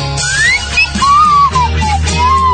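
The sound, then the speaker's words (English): A slide whistle plays a slow, mournful melody of sliding notes, opening with a rising glide and then wavering tones that swoop gently up and down in sustained phrases. “While my slide whistle gently weeps.”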